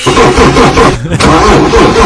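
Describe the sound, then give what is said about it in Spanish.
A cold car engine cranking and struggling to start, a loud, repetitive churning pulse that falters briefly midway and then resumes. “Está queriendo arrancar, eh. Está frío, che, está frío, motor.”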